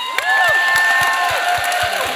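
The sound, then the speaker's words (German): Cheering and applause for the winner of a youth poetry slam at a reading festival: a steady wash of clapping with shouts and whoops rising above it, sustained throughout. “Einen großen Applaus für unsere Siegerin, für Maria!”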